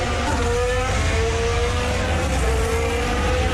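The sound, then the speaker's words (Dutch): Formula 1 race car engine on the track, a loud, steady high-pitched whine that holds a continuous drone throughout, with no break in the sound. “Ja, ik zei het al, Bottas als eerste op de baan. En dus zal het ook Bottas worden.”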